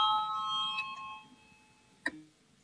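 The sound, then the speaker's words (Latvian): A voting bell rings in a parliament chamber: a faint ringing tone with several partials fades over about two seconds, then a single brief ding sounds near the end. “Lūdzu zvanu”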